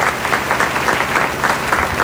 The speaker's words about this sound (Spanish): Un aplauso para ellos.